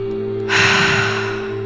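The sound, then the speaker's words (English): A single breath rushes out during guided breathwork: a deep nasal inhale followed by a breathy exhale through the mouth. It swells briefly and fades over a steady, sustained tonal drone. “Taking a nice deep inhale through the nose and out the mouth. And again.”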